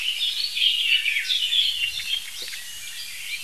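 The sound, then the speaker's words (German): Alarm calls of a Eurasian blackbird at a birding hotspot. Repeated sharp, high chattering notes run almost continuously, loud at first and easing slightly later, with no voices. “Warnrufe aus der gleichen Stelle im Hotspot, da hatte ich die Amsel, aus der gleichen Stelle im Hotspot entstehen wie hier.”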